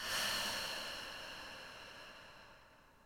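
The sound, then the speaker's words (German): A deep, soft breath, the long exhale through the mouth after a breath in through the nose, makes a breathy hiss that swells briefly and then fades slowly over about three seconds, with no talking. “Nimm mal einen tiefen Atemzug durch die Nase ein. Durch den Mund lang und weich aus.”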